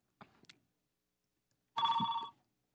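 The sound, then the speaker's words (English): A telephone rings in one short, bright, trilling burst of about half a second. It comes after a couple of faint brief sounds and then stops. “And that's the phone.”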